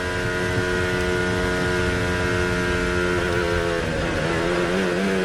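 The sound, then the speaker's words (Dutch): Formula 1 Mercedes race car engine braking early to recharge its battery, a loud, steady, buzzing engine drone throughout that shifts and wavers in pitch near the end. “Opladen, hoor je dat? Dit is duidelijk vroeger aanremmen dan nodig is.”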